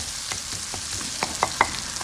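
Butter browns in a pan toward beurre noisette, sizzling in a steady, soft hiss, with a few sharp pops and crackles breaking through near the end.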